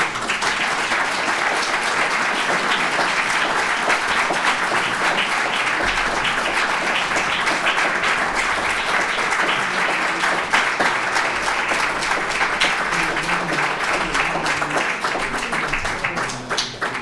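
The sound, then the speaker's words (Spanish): Sustained audience applause at a talk on the political constitution and institutional system: loud, continuous clapping from many people that holds at an even level and thins slightly at the very end. “Entiendo que el aplauso es para Pedro Yáñez, que lo hizo también.”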